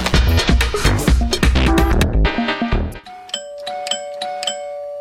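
A doorbell ringing with a series of bright, repeated chimes. A dense, louder burst of tones comes first, then the clear ding notes sound one after another.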